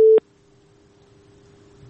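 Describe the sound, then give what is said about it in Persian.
Telephone busy tone on a line after the caller drops: a short, loud burst of steady mid-pitched tone, then the same tone held faintly and evenly to the end, with no voices. “بله فکر کنم تماسشان قطع شده.”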